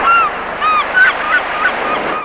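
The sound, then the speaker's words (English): Gulls calling as a flock wheels and hovers over food at a resort, a run of harsh, honking squawks in quick succession that overlap loudly over a steady background wash. “about 17 gulls had also spotted the pizza. They were wheeling and hovering and going,”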